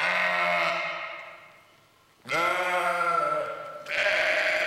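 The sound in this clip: A ram bleats in long, wavering cries with a strong harmonic tone. A few drawn-out calls follow one another, loud and alone with no voices.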